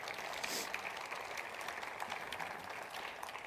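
An audience applauding at a Christian sermon, producing a dense, steady patter of clapping that holds at an even level for a few seconds without letting up.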